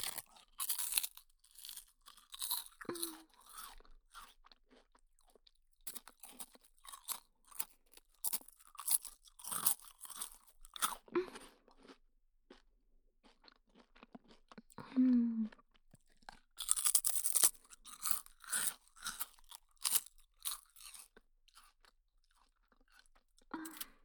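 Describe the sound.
Crunching and chewing on a milk senbei, a Japanese rice cracker: crisp, dry crunches come in irregular clusters separated by short pauses, with faint vocal sounds between bites.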